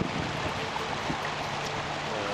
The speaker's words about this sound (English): I found a beautiful piece of pocket water behind a boulder and a tree, actually, in the middle of the river.